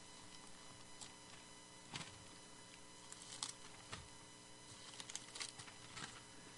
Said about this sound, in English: you hear the pages turning, you know that I'm looking